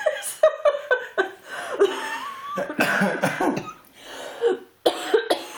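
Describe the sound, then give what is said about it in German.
Harsh, repeated coughing that resembles a smoker's cough, in a rough, hacking series of bursts mixed with chuckling and throat clearing, some coughs loud and sudden, others trailing off. “Ich rauche übrigens nicht, auch wenn das so klingt. Als wäre das jetzt Raucherhusten.”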